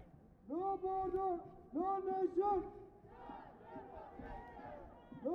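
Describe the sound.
A crowd chants and shouts at a demonstration against deportations in Berlin. Loud, sustained chanted phrases rise over the noise, followed by a looser, more diffuse crowd roar of many voices.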